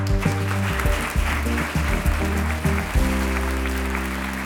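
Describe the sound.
A studio audience applauds in a dense, sustained clatter of clapping that stays even and full from start to finish, with no one speaking.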